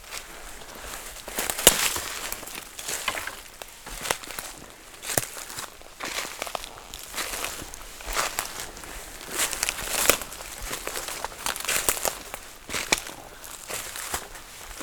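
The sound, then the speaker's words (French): Footsteps crunch through a Slovak forest: many soft steps on crackling, rustling ground at an unhurried pace, with a quiet ambient background and no voices. “écoutez le son de la forêt slovaque”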